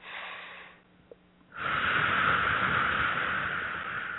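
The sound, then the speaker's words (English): A deep breath taken during a guided relaxation, heard as a soft breathy rush. After a short quiet pause it swells into a long, loud, steady airy flow that continues to the end. “Okay, nice deep breath.”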